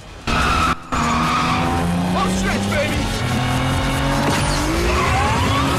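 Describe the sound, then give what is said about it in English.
Tires skid loudly on tarmac as a gold Toyota race car spins wide, a sustained harsh screech with engine roar that dips briefly near the start and then holds steady to the end. “The Toyota spins wide and Brian gains enough tarmac to drive up next to it.”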